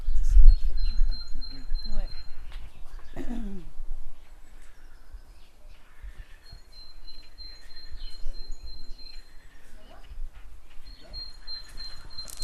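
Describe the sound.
Great tit singing: thin, high, repeated notes delivered in a few separate phrases, fairly faint over low background noise.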